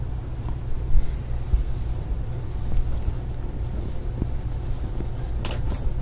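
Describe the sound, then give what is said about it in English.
Faint scratching of a pen or pencil writing a number on paper, a few short strokes over a steady low hum and background noise, with no talk. “Oh, okay, I see. I actually write the number. I'll just write that there and then make the okay, so 5.1.”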